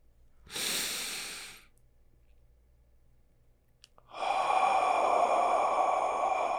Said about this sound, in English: Take a breath in, then exhale.